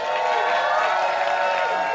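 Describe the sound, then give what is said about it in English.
Applause and cheering rise from an audience welcoming two guests, Ashley Nicole Black and Alice Waterland, onto a show. The noise is dense, steady and loud for the whole moment, with no break. “Please put your hands together for the amazing Ashley Nicole Black and the astounding Alice Waterland.”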